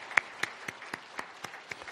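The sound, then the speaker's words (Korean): Congregation clapping during a church service, a faint series of evenly spaced claps in a steady rhythm, each one short and sharp, with quiet gaps between them. “우리 다 같이 박수로 환영하시겠습니다.”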